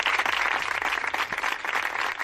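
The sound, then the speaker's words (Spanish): Applause from athletes and staff at sports training grounds and sports centres after a minute of silence for coronavirus victims: dense, continuous clapping at a steady loudness throughout, with no pauses. “Estas palmas que han sonado en diferentes campos de entrenamiento, de primera, de segunda, en diferentes polideportivos, en diferentes centros de alto rendimiento”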